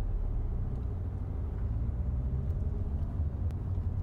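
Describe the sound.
Low, steady engine rumble of a car creeping forward at about seven miles an hour during a driving test. The drone is continuous and even, with no voices.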